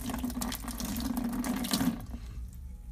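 Running water rinses out a trash can used as a large bucket, a steady splashing rush that holds for about two seconds and then drops to a softer trickle.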